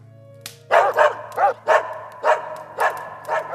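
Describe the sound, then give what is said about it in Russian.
Two dogs bark in a rapid series of sharp, frantic yelps, each bark a loud separate burst in an uneven rhythm over a faint low hum. “как вдруг обе собаки разом поднялись, с судорожным лаем ринулись прочь от огня и исчезли во мраке.”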